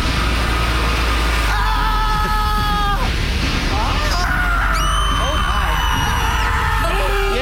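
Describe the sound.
Comedic screaming sound effect from a mock scream factory, with several high, wailing and whooping voices whose pitch slides up and down over a dense, steady roar, loud and continuous throughout.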